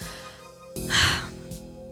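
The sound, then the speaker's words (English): A woman takes a deep breath: a breathy rush of air swells and fades over about half a second, then a brief softer puff follows, all over a low steady hum. “takes a deep breath and closes her eyes.”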